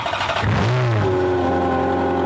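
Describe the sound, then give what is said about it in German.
A limited-edition Ferrari 403 Scuderia sports car engine revs with a loud, harmonic tone. The pitch climbs during the rev and then settles into a steady, higher drone that holds to the end. “Ein Ferrari 403 Scuderia limitierter Auflage.”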